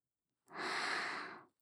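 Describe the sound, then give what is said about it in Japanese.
Gentle blowing into the ear to finish an ear cleaning, a single soft, airy puff lasting about a second, heard alone. “じゃあ仕上げに耳をふうふうしちゃおうか。”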